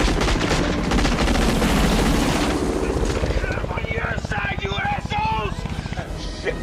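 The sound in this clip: Gunfire from law enforcement officers in an action movie scene: a dense, loud wall of noise gives way to rapid repeated sharp bursts of shots.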